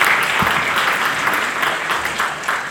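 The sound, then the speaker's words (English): Audience applause after a group sing-along of a song, a dense, steady wash of clapping that holds at an even, loud level from start to finish. “You have got to applaud on that one.”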